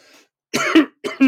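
A tickly throat produces two rough, hoarse coughs in close succession, each a short harsh burst ending in a rasping, voiced catch, after a faint breath.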